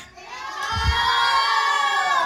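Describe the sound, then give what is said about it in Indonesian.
Children cheer and clap for a storyteller at the end of a told story, a dense, sustained wash of young voices and hand claps that swells in quickly and holds loud to the end. “Baik anak-anak, kita berikan tepuk tangan buat Bu Irma ya.”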